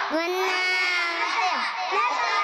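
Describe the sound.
Children chant the Talbiyah, the Hajj invocation, in unison, their voices loud and sustained with a sing-song rise and fall and no break.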